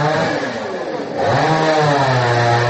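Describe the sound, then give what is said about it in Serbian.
A motor saw cuts a fallen log blocking the road to a house, a loud, continuous engine whine that dips briefly and then revs up to a higher, steady pitch. “Nekoliko meštana testerom seče balvan koji je preprečio put do jedne kuće.”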